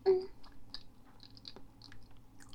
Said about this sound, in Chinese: 我也不知道吃香蕉的声音明显不明显